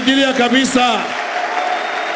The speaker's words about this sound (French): Nous allons l'acclamer très fort.